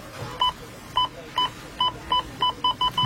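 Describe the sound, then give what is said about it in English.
A store checkout scanner beeps during a home-improvement store sale. Nine short, bright electronic beeps come closer together toward the end over a low background murmur. “Rona week when the checkout sounds like this”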